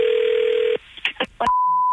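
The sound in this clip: Telephone call tones while placing a prank phone call: a steady low tone, then a few short bursts of voice, then a higher, unbroken beep that sustains to the end.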